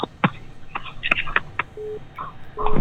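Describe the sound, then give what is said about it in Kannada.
Telephone tones sound after a phone call is cut off: two short, steady low beeps mixed with clicks and line noise. “ಬಿಜಾಪುರದಿಂದ ಸೌಮ್ಯರ್ ಕರೆ ಮಾಡಿದ್ರು, ಕರೆ ಕಟ್ಟಾಯ್ತು”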